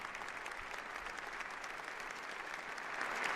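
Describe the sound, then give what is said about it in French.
Applause for the Pope inside Santa Ana Cathedral in Las Palmas de Gran Canaria. Faint, steady clapping from many people that swells slightly toward the end. “Le Saint-Père qui est acclamé par tous, par les laïcs également.”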